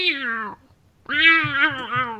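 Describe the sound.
A cat meows twice while a child picks it up roughly: two drawn-out, harmonic meows. The second is longer and wavers in pitch.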